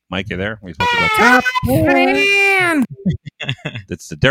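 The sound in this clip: An infant girl cries in the background with wavering, high-pitched wails, mixed in with adults talking over the call.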